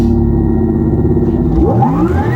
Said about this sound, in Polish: Ten dźwięk sportowego elektryka nie wziął się znikąd.